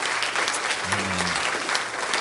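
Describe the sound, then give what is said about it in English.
A church audience claps hands in praise during a service: dense, steady applause from a crowd, even in loudness throughout, with no talk over it. “So just, can we give the Lord a hand clap of praise and thank Him for intervening in that situation?”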